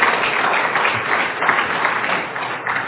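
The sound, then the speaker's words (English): Audience applause after a couple's 30th wedding anniversary is announced: a dense, continuous wash of many hands clapping at an even, fairly loud level for the whole stretch, with no single voice standing out. “That applause is for you, Kathy.”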